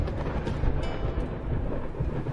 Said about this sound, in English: As soon as Oh recited Wen's poem, the weather turned stormy, as if the skies became disturbed upon hearing these 700-year-old lines.